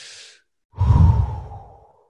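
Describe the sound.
A deep breath taken during a posture and confidence exercise: a short, soft, hissy inhale, a brief pause, then a longer, louder, breathy exhale that gradually fades away, with no talking.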